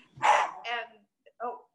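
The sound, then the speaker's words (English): An excited dog barking indoors, where three dogs are present: three short, sharp barks or yips, the last one after a brief pause. “That's my dog. I've got three of them in here with me, so. I don't know what's causing him to be excited”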